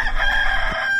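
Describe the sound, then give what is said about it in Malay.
A rooster crows once, a loud, strained call that holds a steady pitch and then breaks off near the end, with no talking. “Ayam jantan berkokok.”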